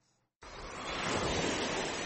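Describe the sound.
Waves wash onto the rubbish-strewn shore of Lake Tanganyika at Uvira. A steady, hissing surge starts abruptly after a brief quiet moment, then swells slightly and holds as continuous noise, with no voices.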